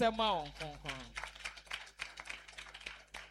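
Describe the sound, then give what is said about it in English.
A church audience claps for the Holy Spirit during a service: a brief voice, then many quick, uneven hand claps that carry on steadily. “Clap for the Holy Spirit.”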